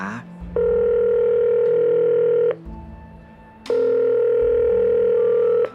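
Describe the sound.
A telephone ringback tone as a call is placed: two long, steady buzzing tones of about two seconds each, separated by a short pause, over a low continuous background hum.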